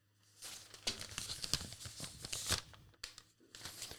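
Paper tearing and crinkling as an envelope is opened before an awards announcement, a faint, continuous run of rips and rustles lasting a few seconds.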